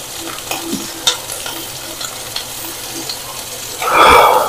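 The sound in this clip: A steak sizzling and frying in a pan: a steady low crackle with a few sharp pops, then a much louder hissing sizzle near the end as the meat is moved or stirred.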